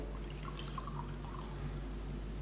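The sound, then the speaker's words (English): Water poured carefully into a glass, a faint, steady trickle with a few soft splashes and drips over a low constant hum, lasting about two seconds. “Now, if I pour the water, which represents the rest of the world, into the glass very carefully.”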